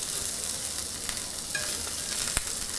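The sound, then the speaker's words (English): Shrimp fry in a pan with a steady, loud hiss of sizzling oil, and one or two sharp clicks cut through the sizzle. “taking these first shrimp that I already flipped and taking them out of the pan already.”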